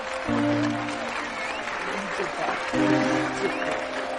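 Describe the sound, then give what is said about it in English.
Applause rises from an audience at a stage event, a steady bed of clapping that runs the whole clip while a voice speaks over it. “Danny smiles at them. She joins the applause, then clasps her hands, and her smile fades.”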